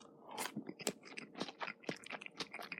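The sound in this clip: Crunchy chewing of a salad of cut lettuce, chopped boiled egg, macaroni and ham dressed with mayonnaise and sauce: many quick, moist crunches and bites in an uneven rhythm, fairly faint, with no talking.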